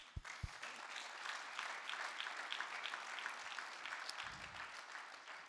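Audience applause at a gathering: dense, steady clapping fills the whole stretch at an even level, with a few soft low thumps early on.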